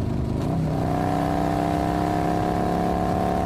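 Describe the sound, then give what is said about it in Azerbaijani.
A car engine revving as the driver speeds up on a hot day, a steady, loud, buzzing drone that holds an even tone throughout, with no talk. “Hə. deyib biraz daha motoru yeyinlədirəm.”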